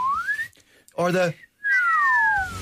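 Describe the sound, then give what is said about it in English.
A slide whistle glides upward in pitch. After a short harmonic burst and a brief pause, two whistled tones slide back down, clear and fairly loud. “We used to have a thing called the flute of truth, which was a sliding whistle”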